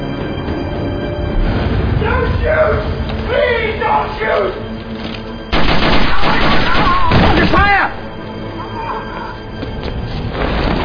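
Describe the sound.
Gunfire in a building filled with kerosene fog from smoke machines: dense, loud bursts of shots over a constant rumble, with voices shouting in between.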